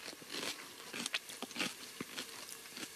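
Crunchy greenhouse-grown plant food being bitten and chewed close to the microphone: a faint series of irregular crisp crunches and crackles.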